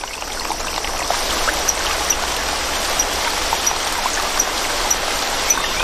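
Babbling water of a rainforest stream with rising water levels, a steady rushing hiss with small splashes and trickles, alone and even in loudness throughout.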